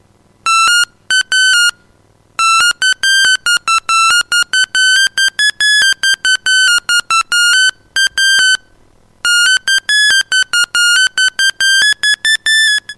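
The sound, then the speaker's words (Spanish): Electronic telephone beeps signal an incoming call in a radio studio. Many short, bright tones come in rapid, irregular bursts separated by brief pauses, loud and with no talk. “Perdón, ¿tenemos una llamada, monito? A ver, ¿qué pasa?”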